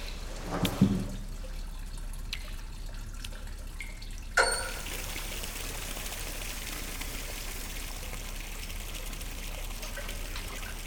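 Hot bath water pours in a steady, soft hissing stream that begins partway through, after a couple of faint knocks, as someone is helped onto a bath chair.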